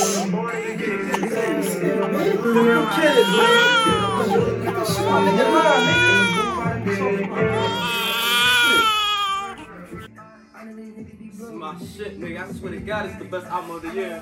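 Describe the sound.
An infant crying after being woken by loud music, with repeated high, wavering wails in loud bursts that fall to quieter, broken whimpering in the last few seconds.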